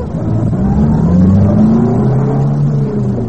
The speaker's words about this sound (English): maybe I better drive around the block again, huh?